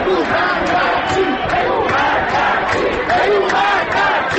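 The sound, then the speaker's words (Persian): A protest crowd chants slogans on Enqelab Street as massed voices roar together in a loud, sustained, rhythmic wave that stays intense throughout. “شعار دوم از انتهای خیابان انقلاب که می‌رسد خیلی آرام و نامفهوم است، اما موجش جمعیت را می‌گیرد و ناگهان صدا بالاتر و بالاتر”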